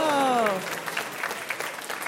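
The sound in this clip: A game show audience breaks into applause, a dense wash of clapping that starts strong and then settles into a lighter, continuing patter under talk.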